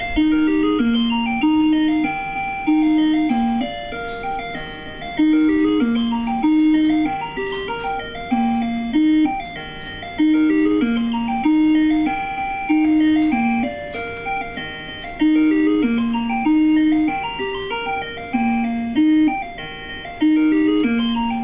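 An ice cream maker plays a loud electronic beeping tune to signal that the ice cream is finished. A short melodic phrase repeats many times in a steady cycle, with no voices.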